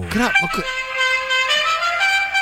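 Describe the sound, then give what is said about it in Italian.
A car horn sounds, opening with a few brief wavering notes and then settling into one long, steady, loud blast that holds to the end. “Che clacson, che bello. Non credo si possa montare.”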